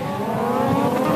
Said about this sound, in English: It's the sound of the 2-litre Honda engine blazing up the straight.